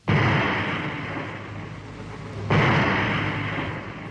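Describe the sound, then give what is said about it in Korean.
Landmines explode in two loud blasts, the second a few seconds after the first, each followed by a long, rumbling decay. “지뢰의 도화선이 움쩍하자 모든 지뢰가 놈들 무리 속에서 꽝꽝 터졌다.”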